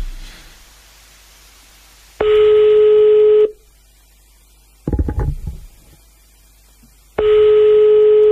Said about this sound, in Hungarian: Hívjuk a naphallgatóját már is.